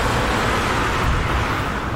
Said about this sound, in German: Wahnsinn, wie viel Verkehr da ist, oder? Cool. Das ist ein so kleiner Ort. Mhm. Aber wieder. Da donnern es durch die Autos. Da donnern es echt durch.